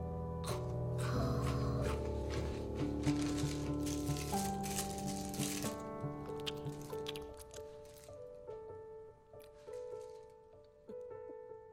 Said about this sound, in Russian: Девочка высыпает на стол конфеты и печенье.